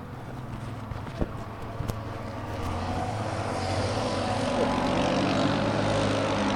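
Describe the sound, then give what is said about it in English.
The engine of a quad bike doing a sideways wheelie down a road in Brussels makes a steady droning rumble that swells gradually louder, with a couple of sharp knocks near the start. “look at that. It's a quad bike doing a wheelie. Well, a sideways wheelie.”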